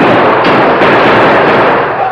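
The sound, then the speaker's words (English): Gunshots smashing lanterns in a radio drama effect: a dense, loud wash of crashing noise runs the whole time, with a couple of sharper bangs near the start. “The accurate shooting of the Lone Ranger and Tonto smashed all the lanterns in the place.”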